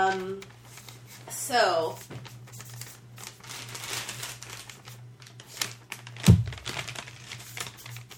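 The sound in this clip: A paper ballot is folded during a vote, making a brief crinkling rustle amid ongoing talk, with a few soft crackles following.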